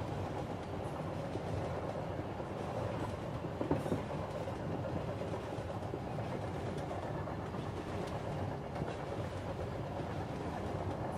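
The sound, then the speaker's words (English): Train running on the track, a continuous, even rumble with faint rhythmic clatter, steady throughout and without talk. “The vibrations from the track to the train, from the train to the seat, lull you further into a very deeply relaxed state.”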